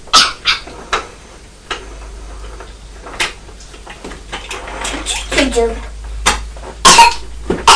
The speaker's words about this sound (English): Oh, you've got a very bad cough, like Nabby.